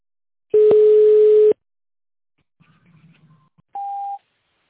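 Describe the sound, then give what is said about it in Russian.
Telephone tones while dialing an extension number in tone mode on a company phone line: a long steady lower beep, a faint low murmur, then a shorter, higher beep, each clean and electronic against silence. “Для связи с оператором оставайтесь на линии или наберите в тоновом режиме внутренний номер абонента.”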